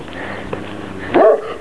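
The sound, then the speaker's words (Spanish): A dog barks from behind a fence at the edge of a town along a pilgrimage trail: one short, sharp bark near the end, over a steady low background hum. “Un perro, Dios mío, qué miedo, que me ladra.”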